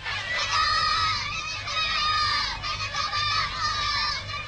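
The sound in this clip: Children shout outdoors, a crowd of young voices overlapping in excited cries. The shouting swells and dips but never stops across several seconds.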